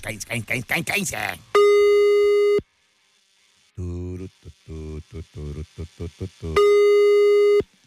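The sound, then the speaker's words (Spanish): Telephone line tones during an outgoing call: a steady, loud line tone sounds after a brief stretch of talk, then a rapid series of many short keypad dialing beeps, followed by another sustained tone of the same pitch. “Estamos marcando.”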